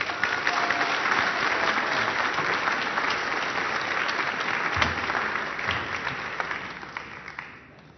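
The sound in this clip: A church audience applauding to welcome a guest speaker: loud, dense clapping that stays strong for several seconds, then tapers off toward the end.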